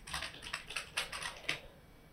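Typing on a computer keyboard: a quick, faint run of light keystrokes in an uneven rhythm that lasts about two seconds and then stops.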